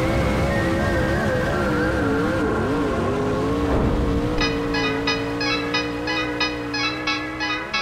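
A race car drives by after the 50th World 100 race, its loud, continuous engine roar dipping briefly in pitch midway before settling into a steady drone with faint rhythmic ticking.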